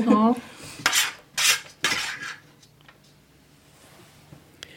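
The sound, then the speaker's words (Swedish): A spoon scrapes and clinks against a bowl while dabbing onion and bacon filling onto small round pieces of dough. After a brief voice come a few distinct scraping strokes, then fainter taps. “en sked och duttar ut lite lök och bacon på var och en av de små runda kakorna”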